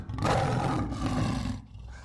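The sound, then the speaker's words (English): A lion roars in one loud, deep, continuous roar lasting about two seconds, fading slightly at the end. “Lions stretched and yawned in the sun.”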